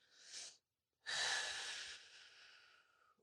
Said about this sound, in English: just kind of take a couple deep breaths into your low belly.